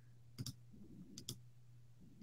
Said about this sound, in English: Let me click on this video before I show you.